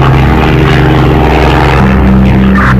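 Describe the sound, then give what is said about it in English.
A propeller airplane drones loudly in flight: a constant, heavy engine hum with steady tonal whine throughout, and a slight shift in pitch partway through as the aircraft turns left and then right. “turn the aircraft to your left. Yes, and immediately to the right.”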